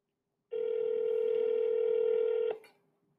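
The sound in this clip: A telephone ringing tone during a call: one steady, unbroken electronic tone that holds for about two seconds and then cuts off with a brief click.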